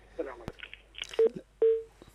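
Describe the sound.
Telephone tones sound as a caller's line is hung up during a call-in religious program: two short beeps at the same pitch, the second one longer, with talking around them.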